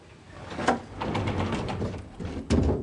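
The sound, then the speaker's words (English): A sliding closet door rolls open: a low rumbling slide with a sharper knock near the start and another near the end, moderately loud and alone. “She opens a sliding closet door.”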